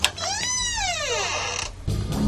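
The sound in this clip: A door creaking open: a long, strained squeal with strong overtones that rises and then slides downward over about a second and a half, followed by a short burst of rustling noise.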